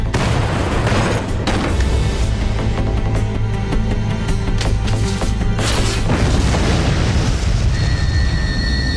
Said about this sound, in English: that last bit was a grenade being thrown into the middle of some Cybermen and it exploding and Cybermen flying everywhere